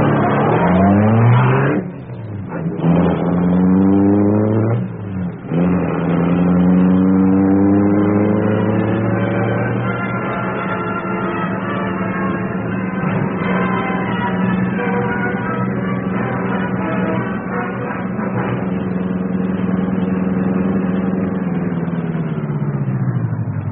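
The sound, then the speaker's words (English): A powerful car engine roars into life and revs hard, its pitch climbing in a few surges before settling into a loud, steady roar as the gleaming car speeds away, with no voices. “Britt Reed pressed a button. The great car roared into life. A section of the wall in front raised automatically, then closed as the gleaming Black Beauty sped into the darkness.”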